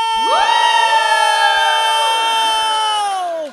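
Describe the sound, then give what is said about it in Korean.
An audience shouts together on cue during a song at a live event, one loud sustained group shout lasting about three seconds before it drops off abruptly. “노래 중에 다 같이 소리 질러”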